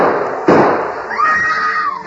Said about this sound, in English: Great Scott! Shooting in old Eli's house!